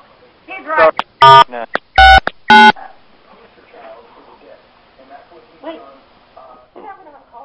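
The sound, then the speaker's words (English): Three touch-tone keypad beeps as a phone dials star 69, each a short, steady, loud tone, preceded by a brief voice and followed by faint line noise and muffled talk. “I'm doing Star 69.”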